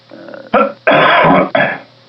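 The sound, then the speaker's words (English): Someone coughing and clearing their throat on an unmuted phone line: a few harsh, rasping bursts, one longer than the rest, loud and with a thin telephone quality. “there's somebody that keeps coughing whose phone is not on mute.”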